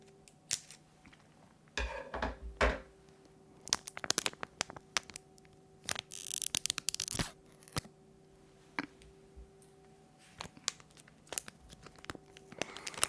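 Packaging is snipped with scissors and ripped wide open, giving many irregular bursts of crinkling, tearing and crackling over a steady low hum.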